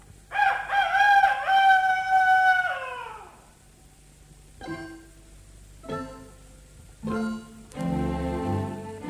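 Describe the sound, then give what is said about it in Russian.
A rooster crows once, a long, loud harmonic call that drops away at the end, followed by a few shorter, quieter sounds. “За окошком снова прокричал петух”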